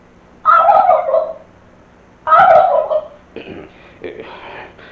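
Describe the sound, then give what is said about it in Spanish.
Turkey gobbling: two loud, rattling gobbles one after the other, followed by a few fainter, softer calls. “¿y ese sonido tan raro? Oh. En mala hora metimos ese jolote ahí”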